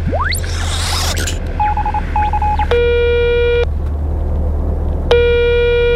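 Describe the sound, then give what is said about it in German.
Telephone dialing: two short bursts of beeping tones, then two longer, buzzy tones separated by a pause, all over a steady low rumble, with a rising whoosh at the start. “Okay, warte mal, ich rufe mal Ava an.”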